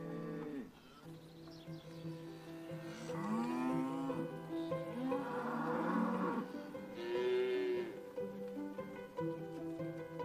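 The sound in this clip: A fighting bull lows in several long, drawn-out moos with wavering pitch, moderately loud, separated by short pauses.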